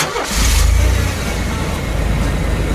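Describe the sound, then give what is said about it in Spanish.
A car engine pulls away slowly during a driving lesson, a loud, steady low rumble that swells at the start and holds evenly as the car moves off in first gear. “Ahora vamos arrancando, avanzando de a poquito.”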